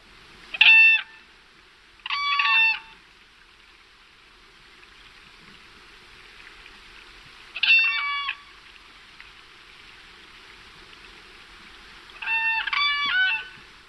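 Whooping crane calls in four separate bursts of high, clear, bugling notes, the last burst longer than the others, with quiet pauses and a faint steady hiss between them.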